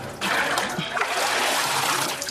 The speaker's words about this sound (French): À l'aide d'un récipient, il ramasse l'eau qu'il jette par-dessus la clôture.